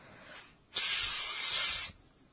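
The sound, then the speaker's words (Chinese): A snake gives a single sharp hiss as it darts out of the grass. The hiss is breathy and steady, lasts about a second, and starts and stops abruptly with nothing else around it. “蛇突然从草丛里窜了出来。”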